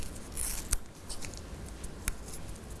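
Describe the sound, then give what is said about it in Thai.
Paper is torn slowly by hand, with the fingers guiding the tear into small pieces: a faint, soft, crinkly tearing with a few sharp little crackles. “จะใช้นิ้วมือนะคะในการบังคับทิศทางแล้วก็ค่อยๆฉีกออก”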